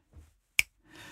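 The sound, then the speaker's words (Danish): A single sharp finger snap, crisp and brief, standing out clearly from a quiet background. “Lad os prøve, vi knipser bare, fordi nu er vi her. Ja. Du må godt knipse.”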